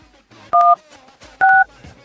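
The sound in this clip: A telephone keypad dials an extension with two short, steady dual-tone beeps almost a second apart. Faint background voices sit beneath the tones.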